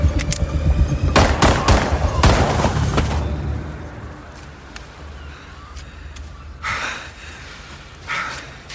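Gunshots: a few loud, sharp cracks in quick succession at the start, followed by a quieter stretch of low background sound.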